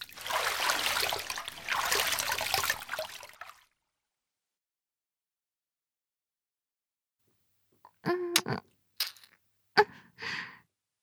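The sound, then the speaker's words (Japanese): Hot water overflowing from a private hot spring bath: a broad rushing splash for a few seconds, then silence, then a few brief sharp clicks and cracks. “お湯はずっと溢れているし、”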